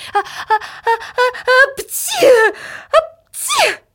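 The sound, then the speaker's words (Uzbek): A few loud, sharp sneezes burst out one after another, following a quick run of short, rhythmic voiced syllables. “So'ng unga hamohang qo'ni qo'shnilar birga aksirdi.”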